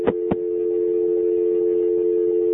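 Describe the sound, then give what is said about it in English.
A telephone line's dial tone hums steadily at the station's call-in lines. Two brief clicks come near the start, then the tone holds unbroken and fairly loud. “least there's a dial tone, we can't, uh, oh, it's got a little problem on there.”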